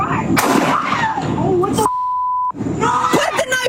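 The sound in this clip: Gunshots from a police video recording ring out as two sharp, loud bursts amid raised voices, with a steady censoring beep tone sounding between them.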